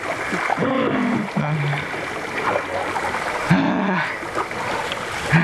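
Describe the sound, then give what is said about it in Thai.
Paddles splash through water as a team paddles a boat together, a steady rushing wash of splashes with brief vocal sounds rising above it. “ตะกี้ผมว่าก็นึกว่าคือแบบเร็วแล้วที่เราพายแต่ว่าจริงๆมันคือช้านะครับ”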